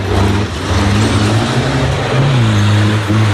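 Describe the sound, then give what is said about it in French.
Car engine revving at a motor event in Haute-Vienne, a loud, continuous droning roar whose tone shifts in pitch a few times, with no talk over it. “c'est un bruit de moteur, vous l'avez compris”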